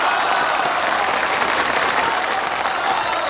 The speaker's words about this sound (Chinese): 下面请欣赏舞蹈表演者冉冉、倩倩、康康等人，大家热烈欢迎！